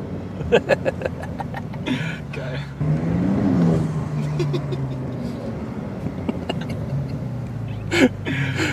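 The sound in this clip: A Turbo S car engine revs, and its exhaust crackles afterwards. The rev swells into a rising roar, then settles into a steady rumbling drone. Sharp pops and crackles burst out near the start and again near the end.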